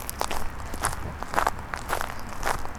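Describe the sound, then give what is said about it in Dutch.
Footsteps crunching over a gravel path in the woods near Hilversum in the evening, a steady walking rhythm of evenly spaced, gritty steps with crackling texture. “Ik loop weer over het mooie grindpad.”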